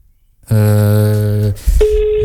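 Telephone ringing on an outgoing call placed live from a radio studio. A loud, buzzy tone holds for about a second, then a short break, followed by a steady higher beep.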